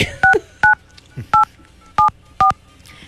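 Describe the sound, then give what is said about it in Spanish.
Touch-tone dialing of a telephone number: five distinct, evenly loud dual-tone key beeps at uneven intervals, with faint background sounds between presses. “entonces, pónganme a marcar ahí”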